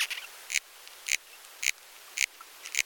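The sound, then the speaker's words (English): Ips beetle larvae and adults moving inside a tree's phloem, picked up by a probe, give five sharp clicks at an even pace with faint ticking between them against a quiet background. “As soon as the beetles are present, then we hear this characteristic sound, the sound of larvae and adult beetle motion. It's a simple motion within the interior phloem of the tree.”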